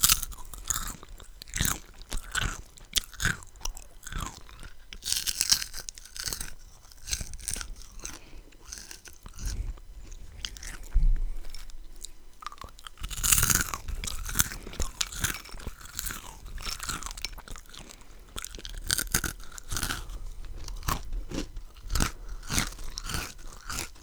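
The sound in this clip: Someone eats a crunchy snack that comes in sweet and salty versions, giving many sharp, crackling bites and chewing crunches in an irregular run with brief quieter gaps and no talk.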